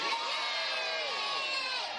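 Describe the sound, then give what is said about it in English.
Children in an audience shout a loud, high-pitched cheer together, sustained at full volume for the whole two seconds. “And all the children would scream! Stimulating power for months from. Everyone say, yay!”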